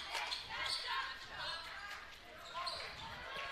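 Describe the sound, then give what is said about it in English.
Basketball dribbled on a court during a full-court game, its repeated bounces mixed into a steady wash of noise, with voices talking over it. “still dribbling”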